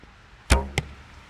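An arrow is shot at an archery target, giving two sharp thwacks about a quarter second apart, the first louder, over a quiet background.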